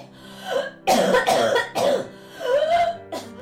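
An old woman coughs in hacking fits, her throat irritated for weeks: several harsh, voiced, rasping bursts in close succession, loud and raw.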